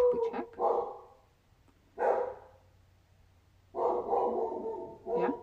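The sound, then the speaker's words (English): A beagle barks in several rough, drawn-out bursts separated by short pauses, with the longest bark near the end and a quick final yelp. “That was a beagle bark. And if you hear that, it's because there's a dog barking.”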